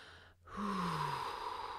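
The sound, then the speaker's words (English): A single deep, airy breath taken during a guided breathing exercise, a long steady rush of air lasting over a second after a brief pause, with no talking. “Take three deep breaths.”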